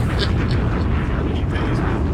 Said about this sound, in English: Hit that bomb again.